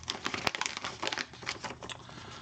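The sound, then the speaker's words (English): An official award envelope is torn open at an awards show, with crisp crinkling and tearing paper producing many irregular crackles throughout. “And I have this official envelope right over here.”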